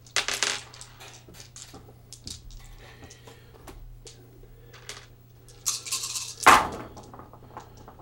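Twelve dice rolled for a tabletop war game clatter and click in quiet bursts, a rattle of sharp, hard ticks at the start and a busier, louder cluster of clacks near the end.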